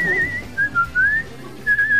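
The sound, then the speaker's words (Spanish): Human whistling in a short melodic phrase of high, wavering notes with brief pauses between them, clear above a faint low background. “Y eso es silbar muy bien.”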